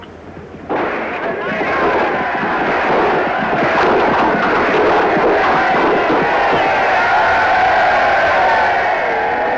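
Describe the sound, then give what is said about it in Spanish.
A Saxon crowd at a medieval tournament roars and cheers a knight's daring challenge. The loud, dense roar bursts in abruptly after a brief quieter opening and stays strong and sustained to the end. “El judío Isaac y su hija Rebeca, junto al público sajón, festejan el atrevimiento del caballero.”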